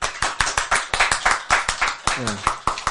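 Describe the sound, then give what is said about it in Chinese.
Rhythmic hand clapping during a Buddhist dharma talk, many sharp, evenly spaced claps at a brisk steady pace, with a voice briefly audible partway through. “赞不赞？拍手。”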